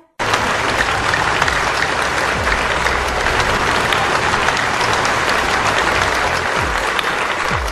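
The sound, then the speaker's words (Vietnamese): Audience applause after a president's speech, with loud, dense clapping that breaks in abruptly after a brief silence and then holds sustained and unbroken at a steady level to the end. “Tiếng vỗ tay kéo dài tròn 5 phút.”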